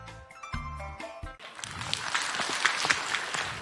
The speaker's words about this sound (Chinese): 感谢大家的掌声鼓励，当然掌声再热烈一点就更好了。